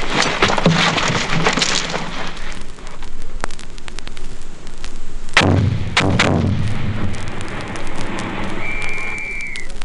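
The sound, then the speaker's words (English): A thrown hand grenade explodes during a military weapons training demonstration, one heavy blast about midway with a low rumbling tail, set among scattered sharp cracks and clatter and followed later by a brief steady high tone. “Prepare to throw. Throw grenade.”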